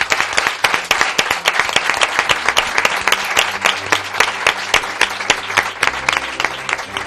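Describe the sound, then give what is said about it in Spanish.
Applause from an audience of listeners: dense, steady clapping from many hands that holds at an even, fairly loud level throughout, with no talk over it. “Y como despedida, que suene... Por supuesto, el aplauso de nuestros oyentes.”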